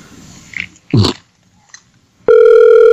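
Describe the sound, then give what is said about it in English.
An unanswered telephone ringing at a store, heard alone: a few brief scuffing noises, then a loud, steady electronic ring tone starts suddenly and holds to the end. “These hacks will leave this phone ring for fucking years.”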